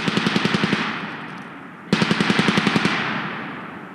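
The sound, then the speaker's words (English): Automatic gunfire during a military training exercise with embedded reporters, two long bursts of rapid, evenly spaced shots, each burst trailing off into echoing decay. “In one exercise, reporters learned how to move with the squad that comes under hostile fire.”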